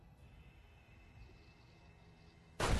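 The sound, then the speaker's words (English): A pistol shot in the Fallout video game destroys an emitter: one sudden loud, sharp burst arrives at the very end, after a long stretch of faint, steady low background hum. “Took it out. Nice. One shot from a pistol.”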